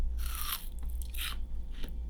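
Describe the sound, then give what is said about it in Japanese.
Crisp, crunchy biting and chewing of a sweet food that was cut up beforehand. A few loud bursts of crunching stand out over a low, steady hum, with no voices. “じゃあ食べていきます。いただきます。”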